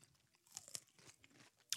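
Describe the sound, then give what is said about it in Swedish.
Someone bites and chews a fresh, moist cucumber. A few crisp, crackling crunches come through faint, with wet chewing between them and no talk. “Vi lyssnar när du äter gurka.”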